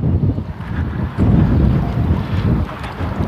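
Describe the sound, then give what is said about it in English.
Wind blows across a cross street, buffeting the microphone with a loud, low roaring rumble that swells into a stronger gust partway through, with no talk over it. “Oh yeah, wind on a cross street. Yahoo! Blowing dirt in my eyes.”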